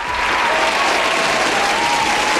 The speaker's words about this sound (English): can I please get a round of applause for the weekend?